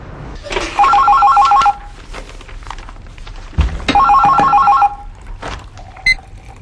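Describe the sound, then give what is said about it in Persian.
Telephone ringing on an outgoing call: two loud trilling ring bursts, each about a second long, separated by a pause, with a low thud just before the second ring and a brief knock near the end. “الان زنگ میزنم نازنین”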